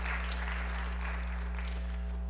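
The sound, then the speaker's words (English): An audience claps during a sermon in a steady, fairly faint wash of applause that runs throughout, over a low, constant electrical hum. “you clap one more time, I'm gonna feel like John Hagee.”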